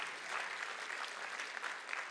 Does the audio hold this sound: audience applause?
yes